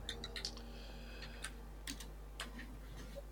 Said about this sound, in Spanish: ¿Quién está tecleando ahí? ¿Quién está tecleando ahí?